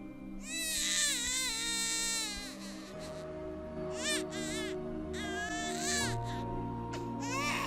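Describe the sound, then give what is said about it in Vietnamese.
A baby boy cries upstairs in shrill, wavering wails, with one long cry followed by several shorter bursts over a steady low background tone. “Ở trên tầng có tiếng của thằng bé con Toan khóc lên nheo nhéo.”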